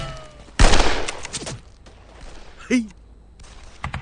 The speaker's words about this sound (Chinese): 我用钢盔引诱敌方狙击手，你瞅准了就开枪。